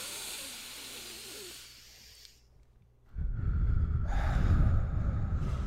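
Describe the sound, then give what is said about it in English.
Deep breaths taken together as a calming exercise: a soft, breathy hiss fades almost to silence, then a loud, rushing breath surges up and holds heavily to the end. “Let's just let it. Let's do some deep breaths.”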